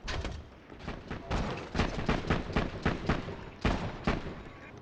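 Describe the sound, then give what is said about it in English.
Pistol gunshots from a video game, fired repeatedly at nothing: many sharp, booming reports in quick, fairly regular succession, each with a brief rumbling tail, with no talk over them. “This is a really good pistol when I can aim properly. I'm just shooting nothing.”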